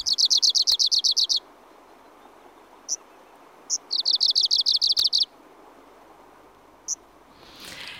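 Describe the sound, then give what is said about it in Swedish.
An Arctic warbler sings in Abisko on a hot summer day, giving two rapid, dry trills of high, evenly spaced notes. A few single high call notes sit between the trills over a quiet background. “Ja, så lät alltså när jag och Nils-Åke Andersson var ute igår och fick den stora lyckan att höra nordsångaren här i Abisko.”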